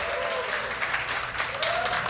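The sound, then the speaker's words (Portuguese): An audience claps enthusiastically at a live music show, a dense, steady wash of applause lasting about two seconds at a constant loudness. “gostou, bate palma pra nós.”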